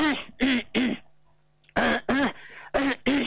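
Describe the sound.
A voice imitates throat clearing, as if from a stuffy, constricted feeling in the neck. Seven short, loud, voiced grunts come in two bursts, three and then four, with a quiet pause between them.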